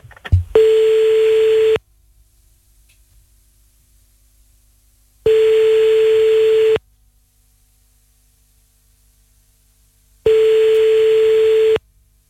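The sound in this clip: Ringback tone of an outgoing telephone call: three long, steady buzzing tones of equal length, each followed by a few seconds of silence.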